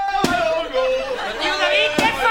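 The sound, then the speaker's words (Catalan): A man pounds grain in a wooden vessel, grinding it to make bread. Two sharp, loud thuds land about two seconds apart while people talk throughout. “Estic molent gra, company! Molent gra per què? Per fer pa!”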